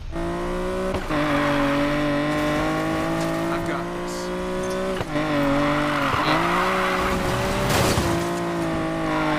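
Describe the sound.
A car drifting in a video game: a steady, loud engine drone with strong harmonics whose pitch dips and recovers a few times, with hints of tire squeal during the slides.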